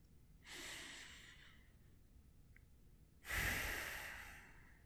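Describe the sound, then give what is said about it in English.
Two deep breaths taken slowly during a guided mindfulness exercise, each a long, airy rush of air, the second one louder than the first, separated by a quiet pause and heard without any talking. “we're going to ask you to take one more deep breath”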